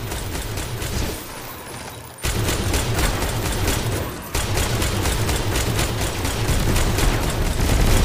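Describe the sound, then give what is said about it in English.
Rapid automatic gunfire from a weapon in Destiny 2, fired through a modded controller in rapid-fire mode: a loud, dense, continuous stream of shots broken by two brief dips. “This rapid fire mode. How do I turn it off?”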